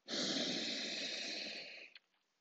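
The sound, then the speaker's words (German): A deep breath during a guided morning affirmation exercise: one long, steady, breathy rush of air lasting almost two seconds, fading out at the end, heard alone without speech. “Und atme erstmal ganz tief ein”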